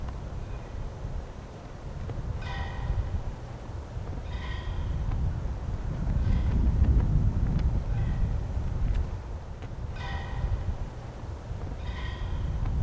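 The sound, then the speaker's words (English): A flag flaps in the wind over a field, heard as a faint, steady, gusty low rumble that swells in the middle. A few brief, thin, squeaky tones sound intermittently above it, and no one speaks. “that's the sound of the flag blowing in the background.”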